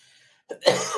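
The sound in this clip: Harsh coughing from a tickling throat: a short burst and then a longer rasping cough that swells twice, loud and alone after a brief silence.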